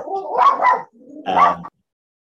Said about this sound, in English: Astrid's just muted herself because her dog's gone. The dog's gone out of control.